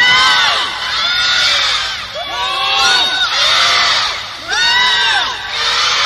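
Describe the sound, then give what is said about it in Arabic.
Young people in a crowd shout together on cue in several loud, rising waves that swell and drop back, close to cheering and whooping, with no clear talk between the shouts. “طيب الآن يا شباب نبيكم تعطون أنتم صرخة والجمهور صرخة، بشوف أعلى أنتم ولا هم. ثلاث مرات، واحدة وواحدة وواحدة وواحدة وواحدة. نبدأ من عندكم، واحد اثنين ثلاثة.”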